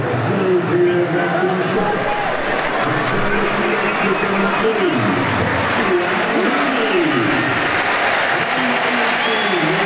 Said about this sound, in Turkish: Alkışlar Botelli'ye. Amdouni çok koştu, çok çabaladı yine.